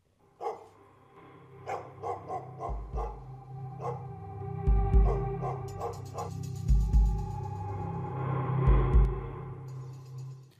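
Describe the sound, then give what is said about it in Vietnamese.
A dog barks loudly and relentlessly, a long series of many sharp, ringing barks at an uneven pace, some louder and harsher than others, with no voices. “Mặc kệ cho con chó vẫn cứ sủa đinh tai nhức óc.”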